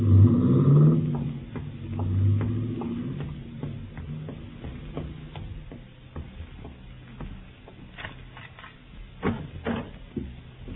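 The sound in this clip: A car engine revs and pulls away as Pappy drives off, loud and rumbling at first and then fading, with scattered clicks and ticks afterward.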